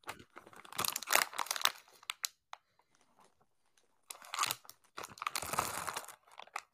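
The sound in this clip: A bag is handled and crinkles in two bursts of crisp, papery rustling, separated by a quiet stretch that holds only a few faint ticks.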